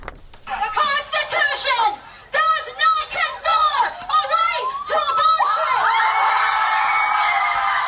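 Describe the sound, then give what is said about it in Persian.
Protesters outside the US Supreme Court, rallying after Roe v. Wade was overturned, chant and shout in short rhythmic phrases broken by brief gaps, then a single long, high sustained cry rings out over the crowd. “این صدای معترضانی است که از روز گذشته و پس از لغو قانون تاریخی سقط جنین موسوم به روبی وید در برابر دیوان عالی آمریکا تجمع کردند.”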